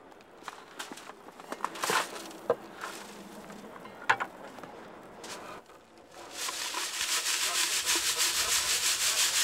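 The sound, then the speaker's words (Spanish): Soil sifted by hand through a fine mesh screen at a screening station for recovered artifacts: irregular scraping and rubbing with scattered sharp clicks, giving way to a steadier, louder rasping shuffle near the end. “se llevan a una estación de cribado, donde se clasifica a mano a través de una malla fina”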